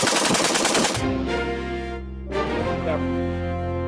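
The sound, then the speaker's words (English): Rapid gunfire from a semi-automatic weapon fitted with a rapid-fire device: a loud, dense burst of shots crackles through the first second, then gives way to a steady droning hum. “The killer used a device like this that turns his semi-automatic weapon into a rapid-fire killing machine, as seen in this YouTube video.”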